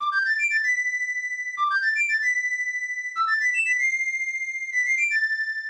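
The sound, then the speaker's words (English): Flute melody from a classic fantasy video game: a quick rising run of clear, bright notes settling on a long held tone, repeated four times, with the final phrase ending on a slightly lower note. “That was the flute from The Legend of Zelda, A Link to the Past, which is my favorite game as a kid.”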